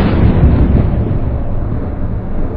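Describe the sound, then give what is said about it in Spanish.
A deep, sustained roar of an explosion from blasting sandstone rock at a drilling site, a loud, dense, low rumble that holds steady for the whole clip without a sharp onset. “después de la primera explosión auténticamente potente”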